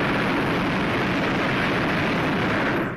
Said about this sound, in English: Burner coming on.